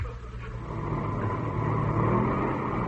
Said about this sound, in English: Motor sound okay.